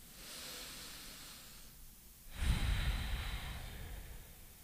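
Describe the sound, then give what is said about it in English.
A slow, deep human breath, faint and airy: a long soft inhale followed by a fuller, louder exhale that gradually fades. “So, before we begin, take in a deep breath with us.”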